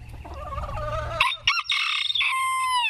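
Chickens clucking and squawking, kept by a group of retirees in Massachusetts during cold weather: a run of throaty harmonic clucks that gives way to drawn-out, high squawking calls, loud and without talk.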